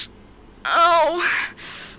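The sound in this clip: A woman's moan played from an erotic video clip: one drawn-out voiced moan whose pitch wavers and slides downward, followed by softer breathy exhalations, all alone and fairly loud.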